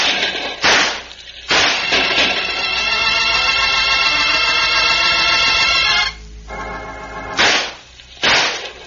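Gunshots in a western shootout, four sharp, loud cracks: two close together, then a long sustained ringing tone, then two more.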